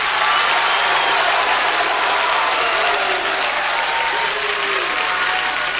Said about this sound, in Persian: اون عقبی ها خواهرها یه کف مرتب بزنن اون کف بزنن فقط این صدای کف زدن